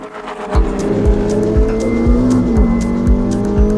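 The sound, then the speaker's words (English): Engine of a 1949 car running with a direct drive torque converter instead of a conventional transmission: a loud, steady drone with a regular pulsing beat. Its pitch climbs gradually before dipping briefly near the middle. “What you're hearing now is the sound of a direct drive torque converter in place of a conventional transmission setup, which was unheard of in 1949.”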